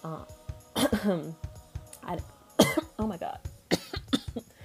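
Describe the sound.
Someone coughs and clears their throat after eating crackers with cheese. Several harsh bursts come in uneven clusters, mixed with voiced grunts.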